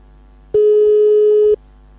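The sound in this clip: A single steady telephone line tone, about one second long, sounds on a call being placed. It is loud and even and plays alone over a low background hum.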